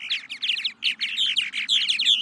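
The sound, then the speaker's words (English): Purple martins calling, North America's largest swallow: a fast, nearly continuous stream of many high chirps and twittering notes, fairly loud, with only a brief dip partway through. “Purple martins. They're migratory birds, and in the spring and the summer, they can be found pretty much anywhere east of the Rockies.”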